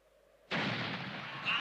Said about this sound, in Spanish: ¡Santo cielo! He cazado un ojeador. Hay que ser imbécil para ponerse delante de las escopetas. ¡Dejad de disparar!